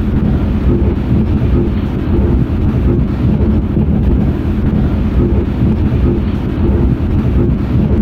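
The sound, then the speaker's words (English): A million recorded heartbeats played at once merge into a dense, continuous low rumbling roar. It stays loud and even throughout, with no distinct individual beats. “And if we record a million people's heartbeat and then play at once, it would be sound like this.”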